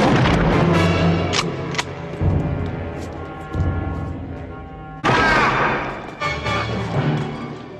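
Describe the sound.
Gunshots ring out in a 1980s action film: several heavy, booming shots land at uneven intervals over a dense soundtrack, each a sharp thump followed by a short decay.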